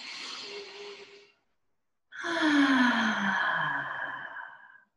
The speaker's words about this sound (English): So we'll do a couple practice breaths in through the nose.